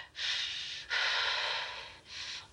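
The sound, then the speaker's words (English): Deep breaths are drawn and released in three long, airy, rushing sounds. The middle breath is the longest and the last is shortest. They are fairly quiet and stand alone with no talking. “Just calm down and take a few deep breaths.”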